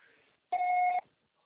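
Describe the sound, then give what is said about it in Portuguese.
A single voicemail beep, one steady electronic tone lasting about half a second and signalling the start of message recording. It sounds alone after a faint murmur, then silence follows. “Grave seu recado. Seu acessório será tarifado após o sinal.”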